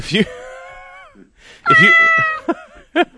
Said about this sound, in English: did you pick a different cat, or is that the same one? Wow. That cat sounded injured.